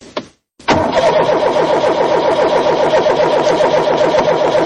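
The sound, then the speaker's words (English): A car engine with a fault that makes it sputter and die is cranked briefly, falls silent for a moment, then fires and settles into a loud, steady running hum. “every time I start it up, the engine runs for a minute or so, sputters like it isn't getting enough gas, and then dies. Okay, let's open up the hood. Okay. Let's take a look. Okay, start her up.”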